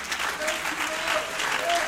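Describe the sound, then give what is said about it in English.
Church audience clapping their hands during a worship service, a dense, steady wash of applause that holds at an even level throughout. “Can we clap our hands unto the Lord?”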